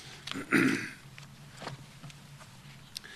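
A person with something stuck in the throat gives one harsh, forceful throat clearing, followed by a few faint, softer throat sounds.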